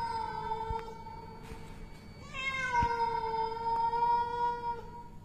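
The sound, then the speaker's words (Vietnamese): A cat's chilling, drawn-out meow: a loud, sustained harmonic wail that runs the whole clip and changes tone partway through, with no voices. “Nhưng chưa kịp nói gì thì một tiếng mèo kêu nghe rùng mình, lạnh lẽo vang lên.”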